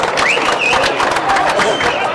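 Applause at a Kempegowda Jayanti community event welcomes D. V. Sadananda Gowda, former Karnataka chief minister, to the stage: dense, steady clapping and crowd noise, loud and continuous throughout.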